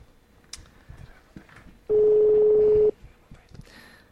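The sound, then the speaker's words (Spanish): A single steady, mid-pitched ringback tone from an outgoing telephone call sounds for about a second, loud and unbroken, between faint background rustles. “Espero que funcione la llamada, sí. A ver, del primer tono.”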